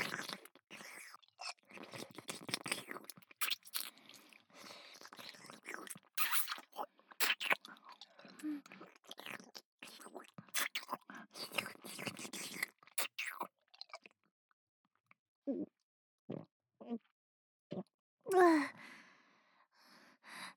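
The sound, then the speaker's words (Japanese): Wet French kissing with tongues: many soft smacking, slurping and clicking mouth sounds mixed with breathy sighs, quiet and intimate, thinning later into sparse separate smacks with a brief voiced breath near the end. “もっともっとベロチューしよう。舌を絡めて”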